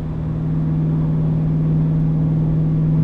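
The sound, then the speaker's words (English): Car engine holds about 2,500 rpm in fifth gear while climbing uphill at 75 miles an hour. A steady, loud, low drone carries a strong constant hum with no change in pitch. “That's 2,500 going uphill. Fifth gear, 75 miles an hour.”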